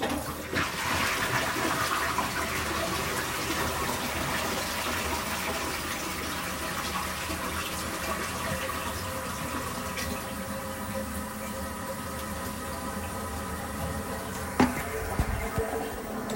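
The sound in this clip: A toilet flushing and its tank refilling: a steady rushing, hissing flow of water runs throughout, fairly faint, with a couple of small knocks near the end.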